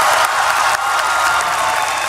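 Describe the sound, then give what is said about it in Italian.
Sustained, dense applause as the Paris climate agreement is adopted, a continuous bright wash of many hands clapping at an even, loud level with no clear pauses. “Applausi, occhi lucidi, abbracci. 10 anni fa venivano firmati gli accordi di Parigi.”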